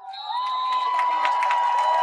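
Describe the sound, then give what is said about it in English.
Sarcastic cheering from a football stadium crowd at a Louisville game, mocking the referee's ready-for-play signal. The crowd gives a steady, swelling roar, with a sustained high tone running through most of it. “And the Bronx cheer because we got the ready for play by the referee.”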